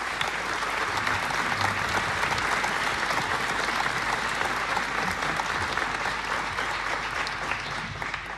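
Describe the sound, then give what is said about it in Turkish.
An audience applauds a conductor at a folk-song concert, sustained, dense clapping at an even, loud level with no breaks for the full length. “Alkışlarla Zafer Gündoğdu geliyor.”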